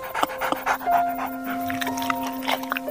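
A dog pants with quick, rhythmic, breathy huffs that run steadily throughout, fairly loud, over a faint sustained tone in the background.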